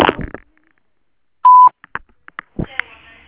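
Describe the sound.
A single steady, mid-pitched electronic beep on a Claro voicemail line marks the start of recording. A voice is heard briefly before it, and speech resumes shortly after.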